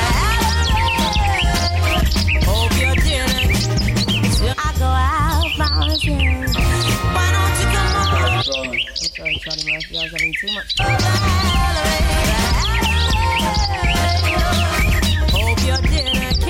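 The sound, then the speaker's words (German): Birds chirp and tweet in loud, busy bursts, mixed over other dense, chopped-up sounds that run the whole way through. “Der Ausschnitt, den wir hier parat haben für euch, der hat heute, so wie es von aussen auch tönt, ein bisschen Vogelgeräusche drauf.”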